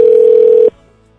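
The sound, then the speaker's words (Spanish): Telephone line tone on an international call from Mexico City to the United States: one steady, mid-pitched hum that holds for a moment, then cuts off abruptly into near silence. “A ver si nos contesta. Ya estamos comunicándonos con Rodrigo desde la Ciudad de México hasta alguna parte de los Estados Unidos”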